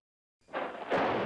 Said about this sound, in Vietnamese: Bất giác trên trời có tiếng sét đánh kết đùng, khiến người nào người nấy co rúm cả lại.